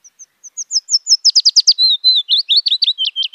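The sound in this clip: Bird song made of loud, high, sharp chirps, beginning with sparse notes, quickening into a rapid cluster, then running on as a string of lower, slurred phrases with no other sounds.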